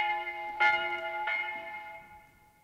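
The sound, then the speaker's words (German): Two strikes of a church bell in a historical Paris setting, each hitting with a bright clang followed by a long, humming ring that slowly fades away. “Haltet an jetzt die Glocke! Zu des Teufels Morgen läutend!”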